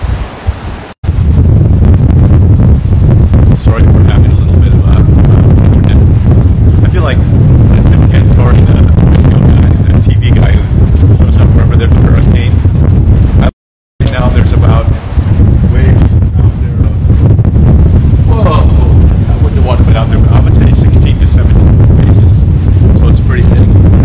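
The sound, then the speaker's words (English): Strong wind buffets the microphone outdoors in a loud, continuous roar and rumble that lasts throughout with one brief dropout, while a voice talks partly masked beneath it. “So if you can't hear me, it's because the wind is really harsh here today.”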